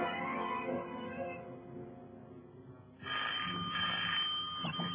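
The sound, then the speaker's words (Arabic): A telephone rings during a stage comedy scene. The steady, faint ringing dips briefly and then resumes louder. “ألو؟ تليفون.”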